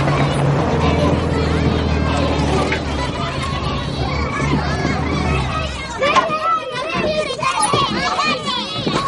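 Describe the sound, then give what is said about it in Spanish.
A group of children plays around a coffin, with many young voices calling, chattering and shrieking over a low steady drone early on, then turning livelier and more scattered in the final seconds. “Una vez que se baja se acerca a un grupo de niños que juega alrededor de un ataúd.”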